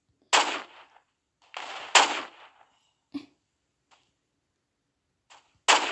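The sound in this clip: Sniper rifle shots in a video game ring out as sharp, loud cracks, each with a short decaying tail, spaced irregularly, with a few fainter pops between the main blasts.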